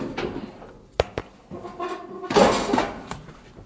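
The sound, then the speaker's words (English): Metal cutlery clinks and clatters as someone rummages through a cluttered pile to dig out a spoon: a few sharp separate clinks, then a louder burst of rattling dishes and utensils. “I need a spoon. Can't really get to the spoon because there's a flipping load of stuff in the road.”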